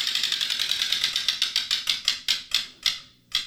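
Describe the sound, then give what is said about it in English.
A prize wheel being spun gives rapid ratcheting clicks that start close together and gradually spread apart as it slows to a stop, with the final few ticks well spaced and crisp. “All right, let's let me spin the wheel. All right, here we go.”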